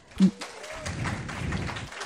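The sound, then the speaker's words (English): Audience applause at a university event while departments and institutes are thanked. A single thump comes near the start, then moderate clapping builds and continues evenly to the end. “You guys don't have to clap after every one of them.”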